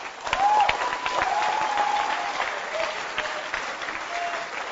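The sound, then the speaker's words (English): An audience claps its hands in a dense, continuous patter of applause that holds steady, with a few voices calling out over it. “Can you clap your hands again?”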